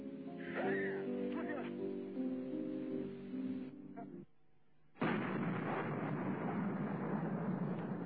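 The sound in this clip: Gunfire in a combat setting: a man speaks in a thin, band-limited voice, a brief lull follows, and then a loud, sustained noisy burst of shooting.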